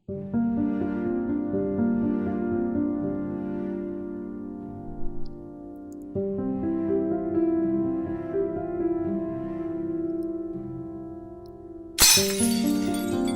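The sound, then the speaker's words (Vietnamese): Objects falling and breaking, a sound effect in an audio drama: one sudden loud, bright crash near the end, cutting across a sustained, droning music bed. “Có tiếng đồ vật rơi đổ.”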